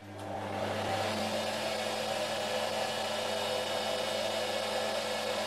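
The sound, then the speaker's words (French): A textile twisting machine winds yarn onto a bobbin, with a part that rises and falls to spread the yarn along its height. It makes a steady, continuous whirring drone with a faint whine and hum that never pauses. “Ouais, on a une partie sur la machine qui monte et qui descend pour répartir le fil sur la hauteur de la bobine.”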